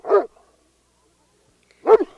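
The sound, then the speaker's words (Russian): A dog barks hard while straining at its leash: two loud, sharp barks separated by a long silent gap. “Почему Мишка лает так сильно? Чего это он? Посмотрите на него, он просто рвется с поводка. Я слышу Мишку, он никогда так не лает.”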